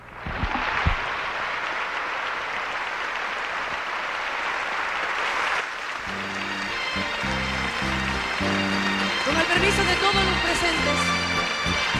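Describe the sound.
Audience applause at a concert runs as a steady, hissing wash of clapping for about six seconds. Music then starts, and the clapping continues underneath it.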